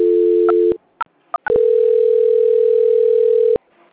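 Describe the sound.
Steady electronic telephone tone during a call transfer. It breaks off into a few clicks and brief beeps, then resumes as a long, even tone for about two seconds before stopping.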